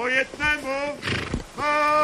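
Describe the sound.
A horse neighs at a volunteer cavalry gathering, a loud, high whinny in several quavering bursts with a breathy, noisy snort in the middle.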